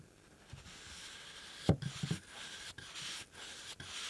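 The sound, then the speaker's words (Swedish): A paintbrush works paint into wood with soft, faint rubbing and scratching strokes, several separate swipes in an uneven rhythm, the firmest one near the middle. “Ja, jag jobbar in färgen i trät. Den ska inte ligga ovanpå, den ska in i trät.”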